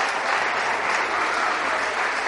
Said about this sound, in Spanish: Un aplauso, por favor, para el colombiano. Y todo el mundo aplaude al colombiano.